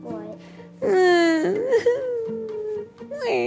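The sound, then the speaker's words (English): A voice imitating a whine: a long, loud, nasal wail held at a fairly steady pitch, with shorter whimpering sounds before and after it. “Do you know what it sounds like when you whine?”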